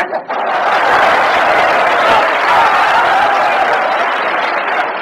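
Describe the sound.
Audience applause swells right after a brief opening sound and holds as a loud, dense wash of clapping, with scattered chuckles from the crowd mixed in.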